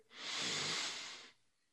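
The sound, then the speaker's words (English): A single deep breath is blown out in a breathing exercise, one smooth, breathy whoosh that swells quickly, holds for about a second and then cuts off into near silence, with no talking. “Take a deep breath in. Blow it out.”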